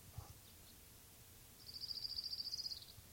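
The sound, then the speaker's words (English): Orange-crowned warbler song: one rapid, high, buzzy trill of many even notes, faint above a low rumbling background. “Orange Crown Warbler number 2.”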